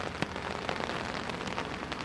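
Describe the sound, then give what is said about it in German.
Steady rain falls in a British national park: a dense, even hiss with a few brighter drop taps standing out. No voices are heard. “Dafür mache ich mich durch den Regen auf den Weg”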